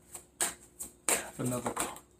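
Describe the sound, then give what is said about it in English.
Papery riffling and snapping of a deck of playing cards being shuffled, coming in a few short bursts with brief pauses, and a voice speaking briefly in between. “Okay, three cards fell out, and I'm going to take all three of them.”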